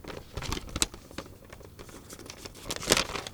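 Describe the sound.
A paper envelope is drawn and torn open, giving soft irregular crinkling and rustling throughout, with two sharper tearing bursts standing out, one early and one near the end, and no talk.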